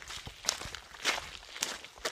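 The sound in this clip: Footsteps walking along a road into a landfill, several firm, evenly paced steps with crisp scuffing transients, heard alone without voices.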